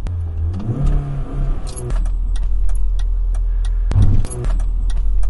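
Car driving on a road in the rain, giving steady low road rumble and tire hiss, with many sharp ticking clicks on top and a brief louder swell near the end.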